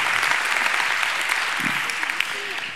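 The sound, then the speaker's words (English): A church audience applauds the fathers standing during a service. The clapping is steady and dense, with faint voices mixed in, and it eases off slightly near the end. “All of our dads, would you stand and let's give it up for our dads today?”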